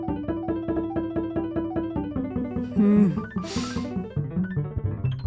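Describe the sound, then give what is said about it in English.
Synthesized tones turning stock market data into sound, a rapid string of pulsing pitched notes whose main line steps gradually lower, broken by a short burst of hiss partway through. “Another example from the past year is how some have sonified the stock market. Like, you remember how wildly it was behaving?”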